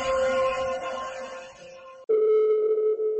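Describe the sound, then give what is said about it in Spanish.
A telephone dial tone as a live call is placed. A brief tonal, buzzy sound cuts off, then a steady, even, continuous tone holds at a constant pitch and loudness. “Vamos a hacer esta llamada en directo con el comandante.”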